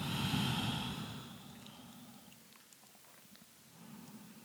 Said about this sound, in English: Take a deep breath.